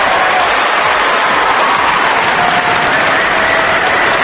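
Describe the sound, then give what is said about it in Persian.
Applause from a crowd: dense, steady clapping that stays loud and even for the whole stretch, with no talk over it. “اول از همه اون دست قشنگه رو بزن برای آقای باهنر. بزن دست قشنگه رو. بزن آقا، بزن.”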